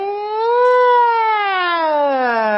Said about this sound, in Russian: Сирена пожарной машины.